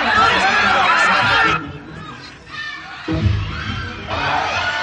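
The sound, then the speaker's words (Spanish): Prisoners screaming over a walkie-talkie: loud, chaotic crowd shouting that drops away midway, then rises again toward the end. “Los prisioneros gritan.”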